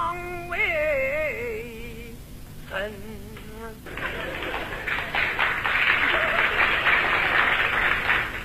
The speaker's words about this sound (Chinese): 鼓掌的人不多呀，鼓掌的人都是南方人。